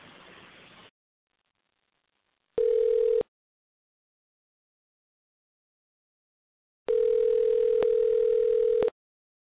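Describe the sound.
Telephone ringback tone from an unanswered call: after a brief burst of noise, a short steady ring sounds, then after a pause a longer one. Both are level, mid-pitched tones with no answer.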